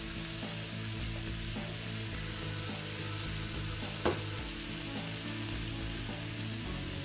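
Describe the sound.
Food frying in a pan gives a quiet, steady sizzle and crackle that runs unbroken. A single brief louder click stands out about halfway through.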